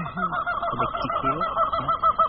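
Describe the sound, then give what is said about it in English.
Wild peacocks calling above the treetops near a tea estate beside a wildlife preserve: a rapid run of loud, nasal, honking cries repeated one after another with little pause between them. “Wild peacocks flap above the treetops. They're not happy, yeah.”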